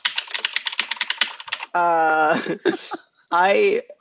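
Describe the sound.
Typing on a computer keyboard: a rapid run of light clicks for about a second and a half, then drawn-out, tonal vocal sounds with short pauses.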